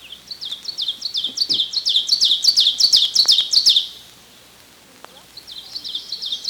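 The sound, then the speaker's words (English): Ovenbird song, a Midwestern warbler's rapid series of repeated bright two-note phrases that builds in loudness, breaks off into a short pause, then starts again. “One of the most common warblers throughout Wisconsin and Minnesota is the ovenbird. It supposedly says teacher, teacher, teacher, but Midwestern ovenbirds accent the wrong syllable, saying teacher, teacher,”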